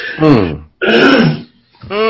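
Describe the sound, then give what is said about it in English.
Throat clearing from a person with a dry throat: three rough, voiced bursts in quick succession, the last one cut short. “And, excuse me, because my throat is dry right now.”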